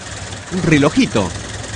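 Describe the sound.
Idling engine of a 1927 Chevrolet car, nearly a century old, a steady low rumble throughout with a voice talking over it.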